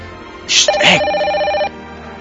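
A telephone ringing with an incoming call: one electronic ring about a second long, a steady buzzing tone that opens with bright, high chirps, set against a quiet background.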